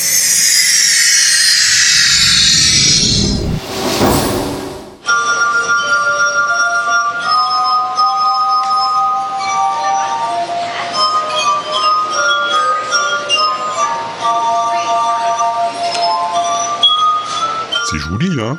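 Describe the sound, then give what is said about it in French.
Ringing glass items: a brief rushing sweep, then a long series of bright, sustained high glass tones that follow one another like a slow melody, clear and fairly loud. “ça casse. Ah oui, c'est du verre.”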